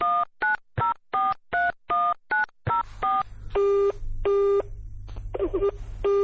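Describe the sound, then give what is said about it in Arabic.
A telephone number is dialed on a keypad: a rapid, evenly spaced run of about eight short tone beeps, then longer steady tones over a low background hum. “انا هجيب لحضرتك رأفت على التليفون وهو هيقول لحضرتك”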